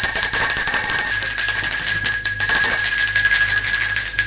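A doorbell rings loudly and without pause for several seconds, a steady, bright, high-pitched metallic ringing with no voices.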